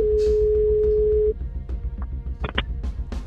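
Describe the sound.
A ringback tone sounds as a phone call is placed: one steady, plain mid-pitched beep lasting over a second, then it stops, leaving low background noise.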